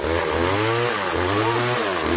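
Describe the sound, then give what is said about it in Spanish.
A lawn mower with its blades removed runs in a radio studio, its small engine giving a steady, loud, buzzing drone with a faint rattle and slight wavering in pitch throughout. “Cortador de césped, todo el que tenga su terrenito.”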